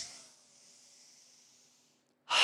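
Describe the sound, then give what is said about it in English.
A deep breath is drawn in, a soft, airy inhale lasting under two seconds, then a short, louder breathy burst at the end. “close down your eyes and take a big deep breath in.”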